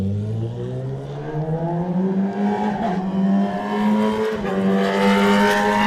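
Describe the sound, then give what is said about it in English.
Engine of a 2023 Honda Racing Fireblade Superstock motorcycle racing on a mountain course, a loud, continuous high-revving whine that climbs steadily in pitch with no voices. “This is Ben Birchall riding the 2023 Honda Racing Fireblade, the Superstock bike here”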